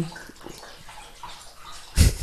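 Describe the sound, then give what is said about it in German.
A dog drinking water, with soft, rapid lapping sounds followed by a louder splashy burst at the end. “So, der Hund trinkt. Der Hund trinkt.”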